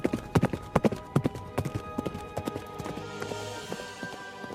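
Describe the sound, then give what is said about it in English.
Hooves of a wild horse galloping across a frozen field, a rapid rhythmic clip-clop of many strikes, loudest and sharpest at first, then continuing softer and more even. “the wild horse of winter, his hoof miraculously heals, is soon bucking, and he's galloping across the frozen field.”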